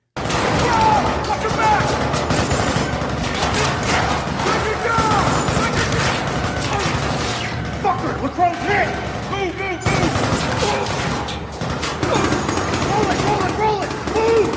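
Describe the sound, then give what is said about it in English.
Rifles firing blanks in a film's combat scene as a fire team moves up: dense, rapid bursts of loud gunfire with scattered crashes, continuous throughout. “So you see all these crazy muzzle flashes. Yeah. That's all Hollywood. Because they got to do that for their cinematography, and they get special blanks that will have that flash on there.”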